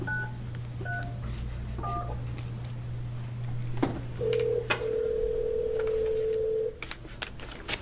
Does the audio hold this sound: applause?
no